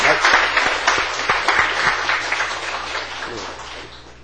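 An audience at a church gathering applauds, a dense patter of many hands with a few sharper claps standing out. It starts loud and fades gradually toward the end.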